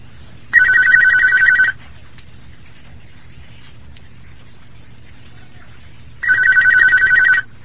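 A telephone rings for a phone-in question-and-answer session: two loud electronic trilling rings, each about a second long, separated by several seconds of quiet, with no talk.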